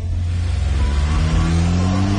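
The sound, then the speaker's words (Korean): A taxi's car engine pulls away with a low, steady rumble whose note edges upward toward the end of the short stretch, with no voices. “택시 문이 열리자 도도는 가방을 안에 넣고 탔다. 그리고 기사에게 영경로로 가달라고 차분하게 말했다.”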